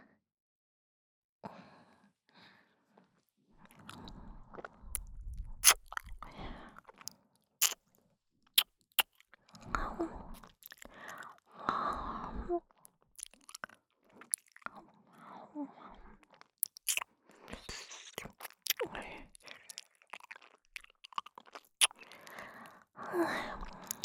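Wet chewing and smacking mouth sounds pretend to eat an ear in an intimate whispered role-play, with many irregular clicks, crunches and soft breaths over about twenty seconds and no talk.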